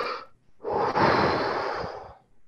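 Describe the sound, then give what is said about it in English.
A deep breath is taken and let out: a short breath sound, a pause, then one long, steady, airy breath that trails off. It is fairly loud, with no talk. “The next thing I do, take another deep breath.”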